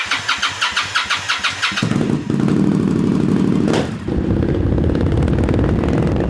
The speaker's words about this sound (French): Et ça c'est ma moto. Vous voulez l'entendre ?